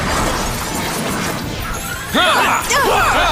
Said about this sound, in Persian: شروع میکنیم. شمشیر چرخشی، ضربه دوباره.